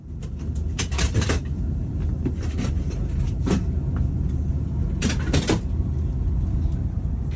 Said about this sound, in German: Was ihr da gerade hört, ist ein Bahnmitarbeiter, der wirklich so von Platz zu Platz geht und die Sitzplätze zu Schlafplätzen umbaut.